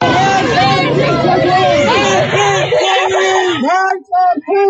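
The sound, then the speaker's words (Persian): Protest crowd chanting slogans in Sadeghieh Square, Tehran: a loud mass of voices shouting in rhythmic unison, thinning toward the end with a brief break before the shouting resumes. “امروز 12 دی ماه 404 تو میدون صادقیه، فلک دوم صادقیه جمع شدیم، شعار مرگ بر ستمگر”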